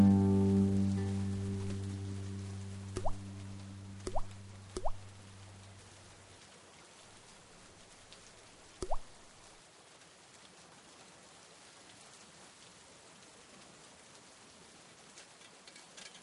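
Steady rain falls with a soft, even hiss, broken by a few sharp drips or plops in the first half; a low hum fades out early on.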